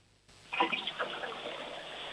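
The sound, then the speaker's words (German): A toilet flushing: a sudden gush of water that settles into a steady, fairly faint rushing flow, with no talking. “Ja, das war eine tolle Klospülung.”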